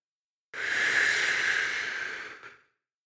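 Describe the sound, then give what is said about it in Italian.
A voice imitates someone blowing to turn melting snow and frost white again, producing one sustained, breathy hiss of about two seconds that holds steady and then fades away. “Poi si mise a soffiare per far tornare tutto bello bianco.”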